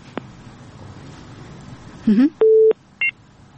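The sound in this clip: Telephone busy tone after a caller's line was cut off: a short warbling tone, then a steady mid-pitched tone lasting about a third of a second, then a brief higher beep, over a low background hum.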